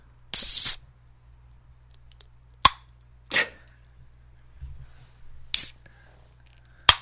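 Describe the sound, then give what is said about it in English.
Cold drink cans being cracked open: sharp pops and short fizzy hisses, several separate bursts with quiet gaps between them and no talking. “It's time to crack a cold can.”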